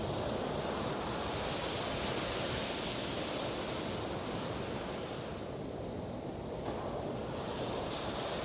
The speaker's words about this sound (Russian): поблизости от меня все еще разбивались небольшие волны